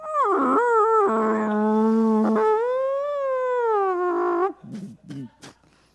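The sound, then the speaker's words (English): A voice imitates a humpback whale's mating call with long, wavering moans that glide up and down in pitch for about four seconds, then trails off into a few short, breathy bursts. “suddenly I start making noises that sound like a humpback whale's mating call.”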